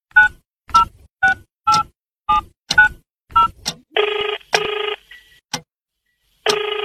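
A telephone is dialed late at night: a quick run of about eight short keypad beeps, then longer buzzing ring tones in separate bursts, with no voices.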